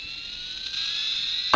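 A small comic rocket keychain toy that doubles as a flashlight sounds its launch effect: a steady, high-pitched electronic whine holding one tone, ending with a sudden louder burst.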